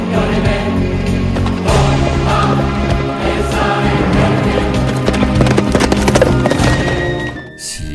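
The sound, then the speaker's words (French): Hooves of a horse galloping along a road with an armoured rider, a dense, loud clip-clop that runs continuously for nearly the whole clip before dropping away at the end. “Imaginez ce cavalier revêtu de sa cuirasse, galopé le long de nos routes, tandis qu'au-dessus de lui passe un gros avion civil.”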